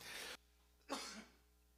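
Coughing and throat clearing from a tickle in the throat: two faint, rough bursts separated by a short pause, with no other sound around them.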